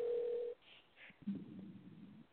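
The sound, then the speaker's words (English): A telephone call hanging up: a steady electronic tone holds for about half a second, then cuts off abruptly. A couple of soft blips and faint, muffled line noise follow. “Right now, the phone hung up.”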